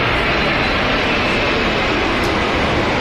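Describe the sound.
An airplane jet engine roars loud and steady near Madrid-Barajas airport, a dense unbroken wash of noise that holds at constant strength throughout.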